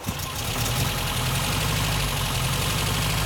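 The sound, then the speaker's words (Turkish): A four-cylinder car engine, started with the ignition key, runs roughly while misfiring on three of its cylinders: a loud, steady rumble with an uneven, knocking pulse throughout. “Şu anda 4 silindirde çalışmıyor. Hayır. İlk seferde çalışıyor ama 4 silindirin yalnız üçünde.”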